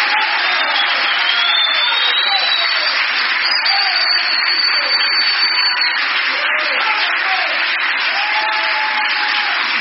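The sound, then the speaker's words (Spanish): An audience at a church sermon applauds in a dense, steady wash of clapping that holds at a loud, even level for about ten seconds, with voices rising over it. “Dale un aplauso al Señor Jesucristo.”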